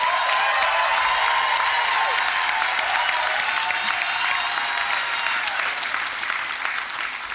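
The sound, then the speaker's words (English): Steady, unbroken applause from an audience welcoming an author who wrote about the Sydney Opera House. The dense clapping stays loud throughout and thins only slightly at the very end. “Please make her very welcome.”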